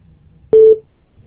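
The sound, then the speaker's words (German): A voicemail beep before a message is recorded: one short, steady, mid-pitched electronic tone that sounds alone after near silence and then cuts off. “Bitte hinterlassen Sie eine Nachricht nach dem Ton.”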